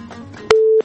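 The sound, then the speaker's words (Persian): Telephone busy tone after a dropped call: one steady, mid-pitched beep of even loudness that cuts off abruptly, preceded by faint low murmuring. “بله فکر میکنم تماس خطیبی عزیزم قطع شده.”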